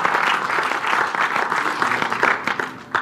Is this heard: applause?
yes